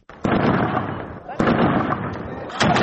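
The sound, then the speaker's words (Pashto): Gunfire in fighting between Afghan forces and Taliban fighters in Kalat, Zabul. Three loud, sharp onsets each run into a sustained, noisy roar of shots. “دا په زابل مرکز کلات کې د افغان ځواکونو او وسلوالو طالبانو ترمنځ د جګړې ډزې دي.”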